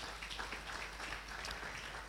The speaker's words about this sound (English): Give the Lord a clap of hands.